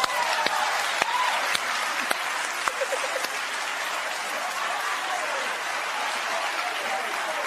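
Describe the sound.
Sustained audience applause: a dense, even wash of clapping, with a few sharp, louder claps punching through in the first few seconds.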